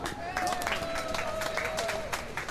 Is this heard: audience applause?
yes